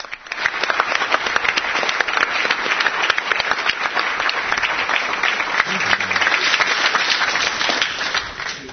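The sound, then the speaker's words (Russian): An audience applauds a group from Haifa at a gathering, a continuous, full wash of clapping hands that rises quickly and stays dense and even for around eight seconds before dropping off at the end. “Посмотрите, там группа Хайфа, давайте им похлопаем.”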